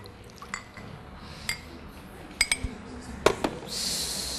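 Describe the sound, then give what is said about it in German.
A cup of water being poured in while cooking: a few light clinks of glass and dishes come first, then a steady, hissing pour of liquid fills the last moments. “So, das dazu und dann kommt eine Tasse Wasser,”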